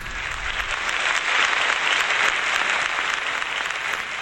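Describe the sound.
Sustained audience applause welcoming a veteran singer onto the stage at an evening live song concert. Many hands clap in a dense, even wash that stays loud and steady throughout, with no single voice standing out.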